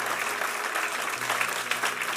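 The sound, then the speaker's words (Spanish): An audience applauds during a church service, a steady, moderately quiet patter of many hands clapping together with small surges and no break. “Dale un aplauso al Señor. Dale un buen aplauso al Señor, porque el que te ama, Él te ama, Él te ama.”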